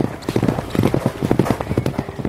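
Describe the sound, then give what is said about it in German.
Racehorses gallop around the inside corner of a flat race, their hooves pounding in a fast, loud, rhythmic drumming of many thuds that continues throughout. “Dann sehen wir innen an der Ecke galoppierend Arizona vor Tabaluga.”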